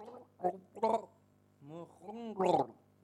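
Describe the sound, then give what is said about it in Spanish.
A person drinking water gargles and nearly chokes, producing a few bubbly, throaty bursts of voiced gurgling separated by short pauses, moderately loud and alone. “Un momento, porque está bebiendo agua y se me va a ahogar.”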